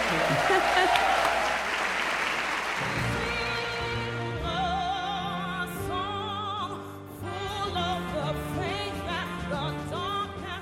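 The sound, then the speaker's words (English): Audience applause for a panel at the Apollo Theater, a thick burst of many hands clapping that lasts about three seconds before giving way to music with sustained, wavering tones. “Big hand for the panel, everybody. Thanks, Apollo audience.”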